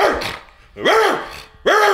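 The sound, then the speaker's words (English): Loud barks from a big dog, a few separate bursts with short gaps between them, each one harsh and bending up then down in pitch. “It's too loud. So that's my dog.”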